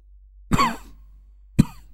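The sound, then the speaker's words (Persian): An old man coughs twice: a longer, throaty first cough, then a short, sharp second one after a pause. Both are loud and stand alone, with no talk. “سرفه‌ای کرد و ادامه داد”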